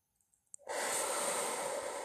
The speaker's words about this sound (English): So take a deep breath with me in through the nose